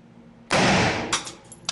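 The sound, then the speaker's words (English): AR-15 rifle round fired into ballistic gel: one loud, sharp gunshot blast with a quickly decaying tail, followed moments later by a fainter, brief burst. “This one's going to be a little bit louder. Now, look at the AR-15 round.”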